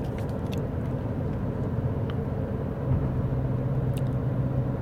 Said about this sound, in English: as I drive to the dentist office this morning